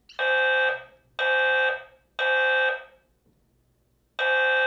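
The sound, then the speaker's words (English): A fire alarm going off as a false alarm blares four loud, steady, buzzing horn blasts: three in an even rhythm, then a fourth after a longer gap. “But I was telling you before I was rudely interrupted by a fake fire alarm.”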